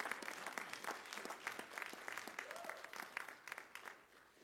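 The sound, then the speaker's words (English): Congregation clapping in praise during a church service, a dense, sustained run of many overlapping claps that stays fairly even in loudness before thinning slightly toward the end. “Give the Lord a big hand of praise.”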